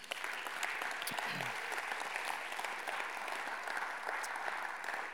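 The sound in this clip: Steady, dense applause from an audience welcoming a pastor as guest speaker at a Northwestern gathering. It holds at an even level throughout without a break.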